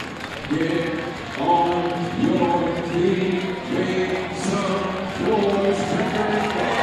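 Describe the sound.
Cheering from a baseball stadium crowd of about 5,000, heard as the home side's opponents sit down to their final strike. The roar is steady and loud throughout, with a layer of tonal sound running under the broad crowd noise.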